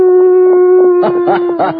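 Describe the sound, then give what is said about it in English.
A person imitates a coyote howl, holding a long steady vocal wail and then breaking into a few sharp yipping bursts near the end. The imitation is loud and plays alone. “This has to be a coyote. Well, here goes.”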